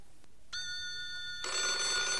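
A telephone starts ringing after a brief quiet moment, a bright, buzzing electronic trill that swells louder partway through and continues steadily to the end.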